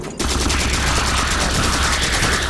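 Sustained rapid gunfire from a modern video game, a loud, dense and continuous barrage of overlapping shots that starts abruptly and never lets up.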